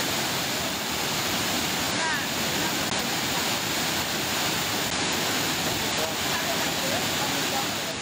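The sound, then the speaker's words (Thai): Roaring rush of flash floodwater pouring down from the hills over a road, strong enough to stop motorcycles; a dense, loud, continuous wash of noise with no pauses. “ดูความแรงของน้ำดูมอเตอร์ไซค์ไปไม่ได้ต้องช่วยกันอุ้ม”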